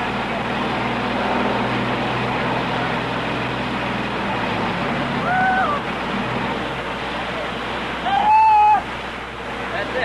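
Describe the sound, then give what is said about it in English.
A generator grinds during an electric chair execution, giving a steady, broad rumbling drone over a constant low hum, with a couple of brief faint whistling tones. “the best thing we could do just hang this mic over and pick up the grind of that generator so that we'll be sure and pick it up.”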